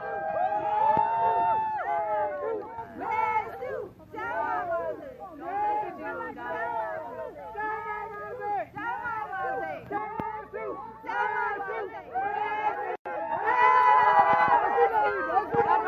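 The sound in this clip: A crowd of Burmese and Americans shouts and calls out in welcome at Blair House. Many overlapping voices stay busy and continuous, with a louder burst of shouting near the end.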